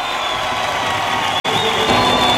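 A crowd applauds and cheers for a cumbia tribute performance, the clapping and whooping forming a continuous, loud roar broken only by a momentary cutout.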